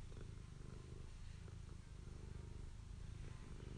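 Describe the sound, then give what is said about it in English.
A cat purrs on a person's lap, a steady low rumble that holds without a break and sounds alone, with no talk over it. “If you hear purring, that's Maggie Moo.”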